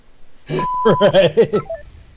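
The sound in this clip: An answering machine beeps: a steady electronic tone lasting about half a second sounds over talking voices, followed near the end by a brief, higher blip.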